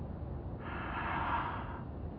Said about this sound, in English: She inhaled slowly.